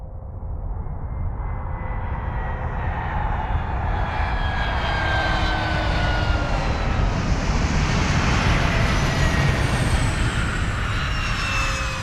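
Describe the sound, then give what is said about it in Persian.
Airplane landing on a runway with a loud, continuous engine roar and a high, shifting whine that persists throughout, with no voices. “هواپیما در حال نشستن روی باند است.”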